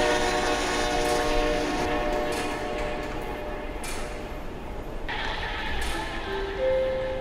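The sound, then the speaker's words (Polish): A passenger train rolls into a platform at a Polish railway station. A constant rail rumble carries sustained tonal whistle and squeal lines, with a few abrupt noise bursts partway through and a short higher tone near the end. “Pociąg osobowy ze stacji Warszawa Zachodnia do stacji Berlin wjedzie na tor 21 przy 55.”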